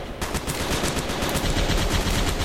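Rapid-fire weapon shooting in a video game: a continuous stream of fast, evenly spaced gunshots that keeps going without a break and stays loud throughout.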